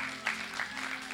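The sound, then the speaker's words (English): Audience applause for people coming up at an event: soft, continuous clapping from a crowd, faint and even throughout. “So give them a round of applause for coming up.”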